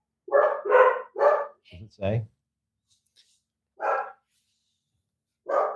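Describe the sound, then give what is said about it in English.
A female dog barks in short, sharp bursts, three quick barks in a row and then a few more spaced out after pauses, with a voice also heard. “Will you go spank your dog, please? That's just gonna make her bark more.”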